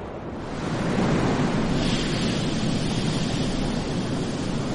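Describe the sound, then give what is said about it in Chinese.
Stormy ocean waves on a windy night at sea make a continuous roar of surf and wind that swells during the first second, then holds steady and loud, with no voices. “这是一个狂风暴雨的夜晚，小胡安的爸爸依然在海里捕鱼。一个海浪。拍打在爸爸的渔船上，”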